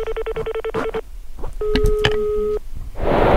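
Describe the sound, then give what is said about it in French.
Outgoing phone call: a rapid string of dialing beeps, a pause, then a steady electronic ringing tone for about a second, ending in a burst of line noise. “Ça sonne, ça sonne.”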